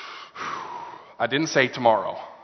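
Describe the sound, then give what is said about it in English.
An audience draws a long, breathy inhale together on a preacher's cue, a steady rushing intake that fades before voiced murmuring rises. “Everyone take a breath.”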